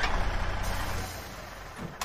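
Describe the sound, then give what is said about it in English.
A truck drives through a truck stop yard at night and comes to a halt, its broad engine rumble and hiss easing partway through into a lower, quieter idle, with a brief noise just before the end. “A white truck drives through the yard and stops.”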